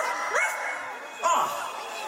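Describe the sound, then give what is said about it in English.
A dog barks on a Halloween night, giving two sharp, high-pitched yips spaced about a second apart over a steady background hum. “Where is that dog?”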